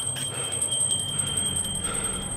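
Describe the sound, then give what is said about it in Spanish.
A small bell on a grave, rung by pulling a cord, tinkles faintly with a thin, high, sustained ringing and quick repeated strikes over a low background. “Si el muerto estaba vivo, solo tenía que tirar la cuerda y sonar la campanilla.”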